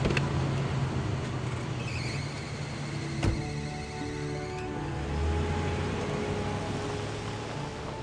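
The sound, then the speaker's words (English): A taxi cab pulls up and drives off on an empty street: steady road and engine noise throughout, with a brief knock near the middle and a low engine rumble swelling afterward. No voices. “A taxi cab pulls up and she gets in.”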